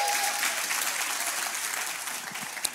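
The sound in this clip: An audience at a Good Friday service claps together in dense, continuous applause. It stays fairly even throughout, with a few voices faintly mixed in.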